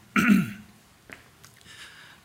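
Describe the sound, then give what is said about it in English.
A person clears their throat with one loud, rasping burst, then gives a few fainter throaty coughs and grunts that trail off in quiet. “Something got in my throat.”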